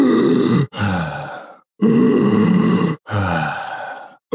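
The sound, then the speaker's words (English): Labored breathing of a young child struggling to get a breath: about four long, strained, grunting gasps in close succession, loud and rough with a groaning voiced edge, separated by brief gaps. “And that was the sound of my son trying to get a breath.”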